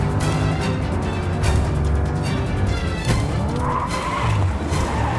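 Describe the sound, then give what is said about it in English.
A car skidding as it swerves through traffic at a junction and onto the pavement: sustained, loud tyre squeal mixed with engine noise, continuing throughout with small surges in intensity. “He narrowly misses a major collision at a junction and ends up driving down the pavement.”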